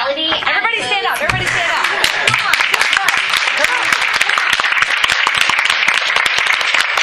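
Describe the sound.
An audience gives a round of applause. A voice speaks first, then dense, loud clapping builds and keeps going steadily to the end.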